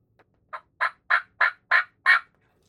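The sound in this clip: Turkey gobbles imitated on a diaphragm call: six rapid, raspy bursts in a quick, even rhythm, growing slightly louder, with no voices.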